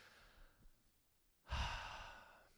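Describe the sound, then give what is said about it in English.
A deep breath taken by people at a group prayer gathering, heard as one long airy exhale after a quiet start, fairly faint and fading gradually. “can we take a deep breath?”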